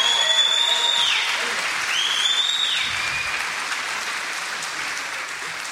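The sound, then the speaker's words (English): Audience applause at a church youth group welcoming a nervous girl: steady, dense clapping, with two high whistles sliding downward over it early on, then the clapping eases slightly. “So you give her a hand, okay? Make her feel welcome.”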